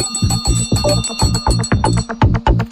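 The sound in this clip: A small bell rings in quick, regular strikes, around a dozen bright chimes with a thumping low pulse under each one. The rhythm stays steady and loud throughout.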